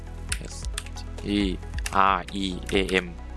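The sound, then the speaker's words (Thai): Computer keyboard keys click as someone types Streamlabs OBS into a web search box. A few sharp, light taps sound under a voice that is talking. “ไปที่ Search ค้นหาแล้วพิมพ์คำว่า Streamlabs OBS ครับพิมพ์ตามผมเลยนะครับ”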